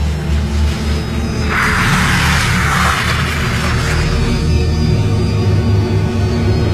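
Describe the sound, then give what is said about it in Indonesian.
A car arriving and parking: a steady low engine rumble throughout, with a soft whoosh swelling and fading in the middle. “sebuah mobil datang dan parkir.”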